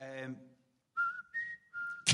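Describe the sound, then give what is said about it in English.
A person whistles a short tune in a few clear, held notes after a brief bit of talk. “We just happened to fucking whistle that tune. We're waiting for a lift, and he went,”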